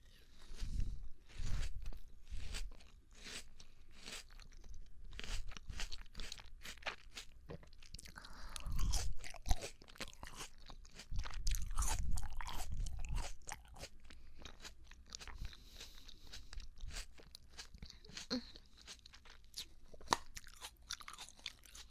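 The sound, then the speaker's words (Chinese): Crunching and chewing of a small fragrant melon, with many irregular bites and moist crunches. The sounds are faint, with no talking. “对，我那天出去买的小香瓜，好吃吗？”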